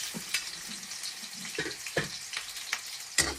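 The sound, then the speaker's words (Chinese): Scallions and ginger stir-fry in hot oil in a pan, giving a continuous crackling sizzle broken by many sharp pops and spits, with no talking. “热锅倒油，放入葱姜煸炒。”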